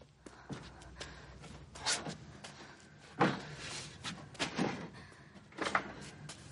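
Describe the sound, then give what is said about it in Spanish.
Metal pipes tumble to the floor of a dark basement in a thriller film, giving a scattered run of clattering impacts, several sharp hits rising and falling irregularly over a low background. “De pronto tropieza con varios tubos de metal que caen al suelo formando un gran estruendo.”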